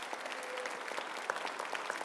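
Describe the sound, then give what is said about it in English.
Soft applause from an audience at the Saratoga Automobile Museum greeting one of its board members, a dense, even patter of many hands at low level with no talk. “Give him a round of applause, everybody.”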